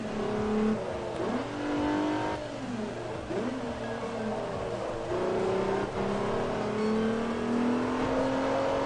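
A race car engine in a racing video game revs as a sustained droning whine, its pitch dipping briefly a few times before climbing gradually toward the end, at a steady loudness throughout.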